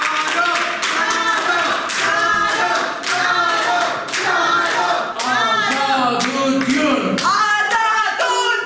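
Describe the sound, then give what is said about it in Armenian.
A packed courtroom hall greets a defendant with rhythmic applause and chanting: many loud, even hand claps beat in a steady pulse while a crowd of voices chants along underneath. “ում մարդաշատ դահլիճը դիմավորեց ծափերով ու վանկարկումներով։”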